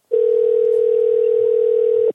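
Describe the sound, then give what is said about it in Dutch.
A telephone line tone plays while a call to a government information line is being connected. It is one steady, unbroken mid-pitched tone lasting about two seconds, heard alone. “We verbinden je door met een van onze medewerkers.”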